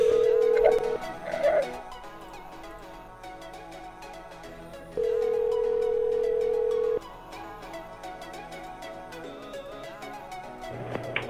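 Ringing tone of an outgoing phone call to a lawyer: a short steady ring near the start, then a longer, louder tone of about two seconds midway, both over a faint, busy background.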